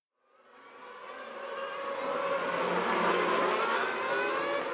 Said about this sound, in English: And Hamilton is closing the gap. The race is very close now. Oh, and he's going past. That's fantastic driving from Lewis Hamilton.